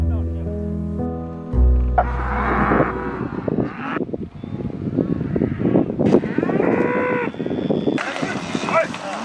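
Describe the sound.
Herd of cattle mooing as they rush out of a fenced enclosure onto open grassland pasture. A long, deep moo opens, then dense, rumbling noise continues with further calls rising above it.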